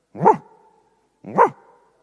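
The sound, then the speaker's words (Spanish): Two short, sharp dog barks about a second apart, each with a brief ringing tail, heard alone with no talk. “Y alguien decía que unos días antes de la erupción, los perros se ponían a ladrar. ¿Cómo ladra un perro?”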